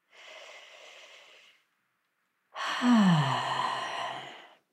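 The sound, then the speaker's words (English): A deep breath drawn during a guided relaxation exercise: a soft, airy inhale, a brief silence, then a louder, longer sighing exhale carrying a faint voiced tone that drops in pitch before fading out. “And then, when you're ready, take a deep and nourishing breath.”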